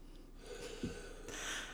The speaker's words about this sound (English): yes, a weed pen. Okay. So, you're going to take a hit? I'm going to take a hit.